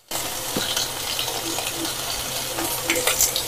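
Steak sizzling in a hot pan, a dense, steady hiss of frying fat that starts abruptly and holds at an even loudness throughout, with no voices over it.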